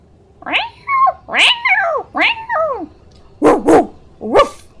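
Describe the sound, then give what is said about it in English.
A dog whining and barking, loud and on its own: several drawn-out yelping whines that fall in pitch, followed by a quick pair of sharp barks and then one more bark. “An odd familiar bark suddenly enters the scene, catching your ears. You did not own a dog.”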